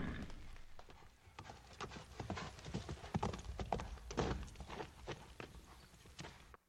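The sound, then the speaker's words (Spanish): Horses gallop hard as riders flee, their hooves pounding in a dense, irregular stream of clip-clops, loud and steady throughout. “Y se fueron a todo galope porque, según todas las intenciones y las miradas, muchos capitanes de Narváez querían apresarlos.”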